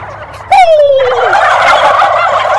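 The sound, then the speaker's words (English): A turkey call imitating an aggressive male turkey gobbling loudly: a sudden, loud, rapid rattling gobble with a falling tone that trails into a dense, sustained warble. “Now what I'm going to do now is I'm going to be an aggressive male and gobble really loudly”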